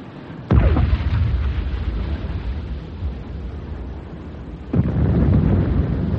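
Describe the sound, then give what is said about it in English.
Two heavy cannon blasts from a ship's gun firing incendiary rounds at another vessel, each a sudden loud boom followed by a sustained low rumble that continues between the shots. “Fire! Reload. Fire!”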